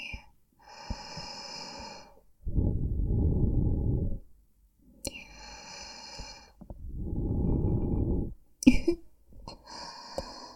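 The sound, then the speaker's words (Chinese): Close-up breathing, with two long, heavy, rushing breaths separated by softer, airy, breathy sounds, all fairly quiet and with no clear speech. “我的呼吸是不是听得非常的清晰？”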